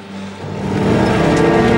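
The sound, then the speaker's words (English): A motor car speeds past on a wet cobbled road at night. Its hissing rush of tyres and engine swells over the first second and then stays loud and steady, with no voices. “He turns to see a motor car driving towards him that stands unmoving as it swerves past him, followed by another which splashes water from a puddle onto him as it speeds by.”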